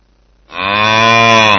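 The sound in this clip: A cow moos once in a single long, loud, low call that holds a steady harmonic tone for about a second, with no other sounds around it.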